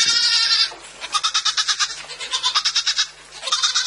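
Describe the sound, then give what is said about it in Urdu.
A goat bleats insistently with a quavering, trilling voice. Its bleats are loud and long, and the wavering pulses repeat in a near-continuous run with only short gaps between them. “Gadkari دار میمے کا نرنتر سور آ کر کان کے پردے کو چھت وکشت کرنے لگا۔”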